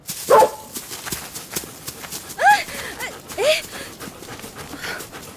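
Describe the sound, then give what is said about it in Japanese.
Panting of a child-sized golden retriever out on a walk on a leash: quick, rough breaths repeating in an uneven rhythm, moderately loud. “犬を散歩させるなんて生まれて初めてのことだった。子供の大きさほどのゴールデンレトリバーは私の先を早歩きで進んでいく。”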